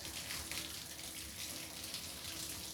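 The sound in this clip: Running water wets hair before shampooing. It makes a steady, soft, even hiss throughout, with no talk.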